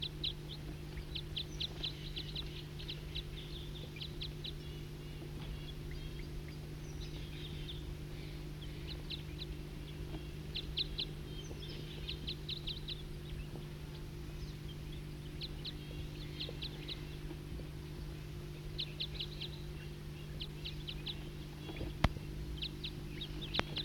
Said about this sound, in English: Start recording a wild bird.